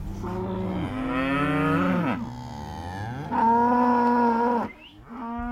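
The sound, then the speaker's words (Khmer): Dairy cattle on a hilltop dairy farm in New South Wales, Australia, low in deep, drawn-out moos. A few long, loud calls carry on their own, without voices. “Mala និង Calgary នៅលើកសិដ្ឋានចិញ្ចឹមគោយកទឹកដោះរបស់ពួកគេ”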